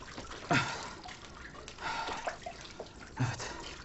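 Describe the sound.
Water poured from a mug over a baby's head during a bath, heard as a few faint splashing bursts separated by quieter dribbling.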